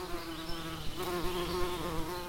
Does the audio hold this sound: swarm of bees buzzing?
yes

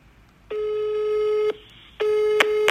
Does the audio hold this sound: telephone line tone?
yes

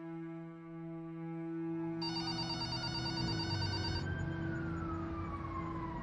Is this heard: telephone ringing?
yes

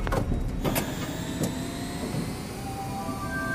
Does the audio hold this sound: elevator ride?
yes

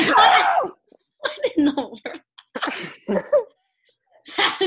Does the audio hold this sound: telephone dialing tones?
no

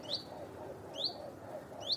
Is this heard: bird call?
yes

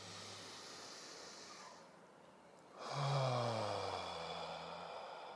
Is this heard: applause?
no

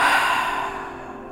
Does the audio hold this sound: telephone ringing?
no

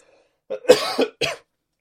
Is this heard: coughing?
yes

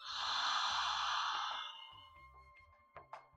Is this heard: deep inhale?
yes

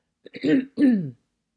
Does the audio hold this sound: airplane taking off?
no

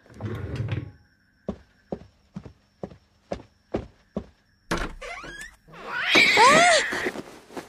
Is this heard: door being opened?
yes

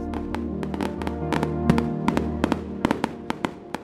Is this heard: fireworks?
yes

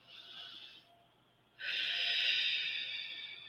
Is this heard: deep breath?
yes

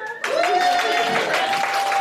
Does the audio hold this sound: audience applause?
yes

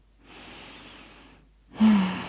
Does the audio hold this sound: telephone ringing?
no

